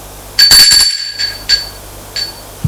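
A doorbell rings at an apartment door left ajar: a bright, tonal ring sounds clearly, then repeats more faintly a couple of times against a quiet background.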